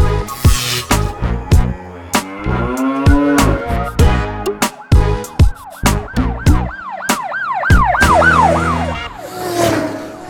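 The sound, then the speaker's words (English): A police car siren wails in repeated rising and falling sweeps, mixed with loud percussive thumps. “There go those bloody cops again.”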